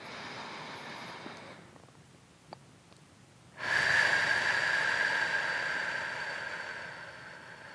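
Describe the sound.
Slow, deep breathing during a calming exercise after childbirth: a long, airy breath swells in suddenly after a quiet stretch and tapers off gradually over several seconds, with no talk.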